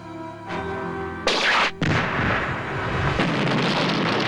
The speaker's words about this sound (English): He fires at the plane, which explodes in violent bursts of flame.